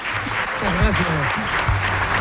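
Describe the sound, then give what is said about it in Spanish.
Audience applause at a tribute event in Urueña, Spain: a steady, dense wash of clapping that holds at an even level throughout, with a voice speaking over it. “Un aplauso para José Ramón.”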